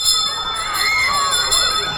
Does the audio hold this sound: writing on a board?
no